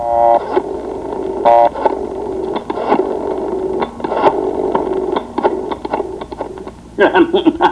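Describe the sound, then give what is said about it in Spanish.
A telephone number being dialed, heard as a run of quick mechanical clicks with a couple of brief tonal beeps in between, uneven in rhythm and moderately loud. “Vaya, voy a marcar.”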